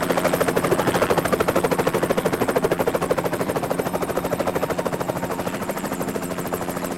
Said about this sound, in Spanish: El helicóptero toma tierra junto a un numeroso grupo de batidores.